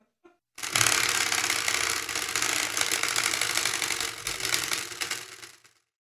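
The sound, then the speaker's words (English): A spinning wheel that picks a discussion topic clicks rapidly and steadily for about five seconds, a dense loud rattle that ends as the wheel comes to rest. “The spinny wheel has landed on moral realism.”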